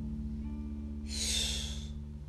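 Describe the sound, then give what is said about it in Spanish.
A forceful exhale of breath comes as a single soft, airy whoosh lasting about a second, over a quiet, steady low hum. “inhala profundo, profundo y vas a dejarlo salir recio.”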